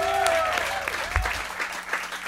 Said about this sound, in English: please give a big round of applause for her